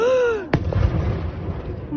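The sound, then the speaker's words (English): An explosion from an attack on two Russian warships stationed at Sevastopol, Crimea: a woman's falling cry gives way to a single sharp, loud blast, followed by a long rumbling decay. “A woman cries out. She's seen an explosion. It's an attack on 2 Russian warships stationed in Sevastopol.”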